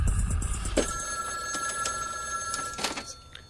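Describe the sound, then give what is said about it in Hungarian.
A telephone rings inside a public phone booth, a steady electronic ringing tone over a noisy, rumbling background with a few brief clicks and knocks. “Csöng a telefon, bárki lehet. Mégis muszáj felvenni a kagylót, nem?”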